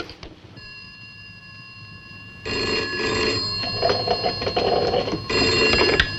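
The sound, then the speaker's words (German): A telephone rings as a call is placed, giving a steady bright electronic tone with ringing overtones. It grows louder and busier partway through and sounds alone with no voices. “Tarling glaubt noch immer, dass Anne bei ihrer Mutter ist und ruft sie an.”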